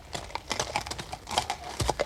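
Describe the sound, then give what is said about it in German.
Horses' hooves clatter on cobblestones in a city street, many irregular, fairly faint hard knocks overlapping in a quick, uneven rhythm. “Als die Hufe unserer Pferde auf den Pflasterstein klapperten, trat er vor die Tür.”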